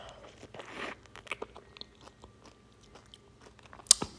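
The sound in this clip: Someone bites into and chews grapefruit, with soft wet crunches and squelches that come in uneven bursts and a sharp, louder bite near the end.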